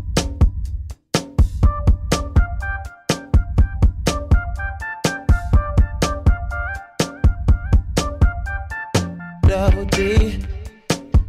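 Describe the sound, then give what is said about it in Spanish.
A song from a 2016 album with a Prince-like feel plays alone, with no talk. A steady, punchy beat runs under layered melodic lines, loud and continuous throughout. “Y si escuchas la canción, la podemos poner de fondo, sí trae una onda Prince.”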